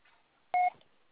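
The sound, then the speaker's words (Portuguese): A single short telephone keypad tone, a brief clean two-note beep, as a phone number is dialed, alone against near silence. “eu tô ligando pra você no seu número de telefone”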